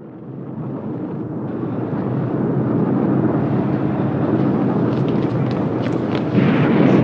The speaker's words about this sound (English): What's going on? Those are Minuteman missiles.